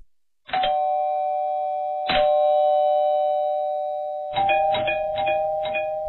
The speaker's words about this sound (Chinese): 感觉也没睡多久，就被那连番炸响的门铃声吵醒。